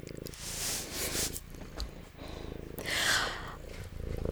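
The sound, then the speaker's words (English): A cat purrs close by with a low, rhythmic, pulsing rumble that continues steadily throughout, swelling slightly in loudness in places. “God, I love that sound though. Like, I'm not even mad. If you all are hearing the purring, you're welcome.”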